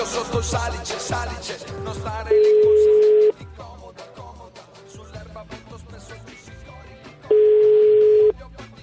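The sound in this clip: Two steady, mid-pitched telephone ringing tones, each about a second long and spaced several seconds apart, sound while someone is calling another person back. Both tones stand out loudly over continuous dense background sound.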